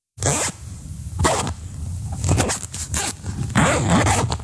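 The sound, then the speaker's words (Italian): A zipper on clothing is pulled open and shut in several quick, rasping strokes, each a short burst of scratchy teeth-clicking with brief pauses between. “Sono una cerniera.”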